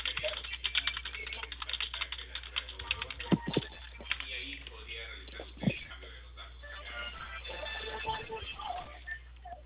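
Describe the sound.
Keystrokes tap out a message on a keyboard as many quick, light clicks in an uneven rhythm, with a couple of sharper, louder taps and talk heard intermittently.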